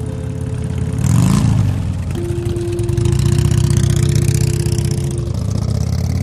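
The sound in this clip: A Harley-Davidson motorcycle engine idles with a loud, steady, low rumble. Early on there is one brief rev that rises and falls, then the engine settles back to its even idle.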